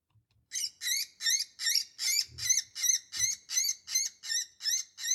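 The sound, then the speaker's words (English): Woodpecker and bird distress calls played as a hunting call: a steady series of many shrill, wavering, high-pitched cries, evenly spaced and fairly loud, with no talking. “switch over and start making your calls with woodpecker and bird distress calls. And so that could sound something like this.”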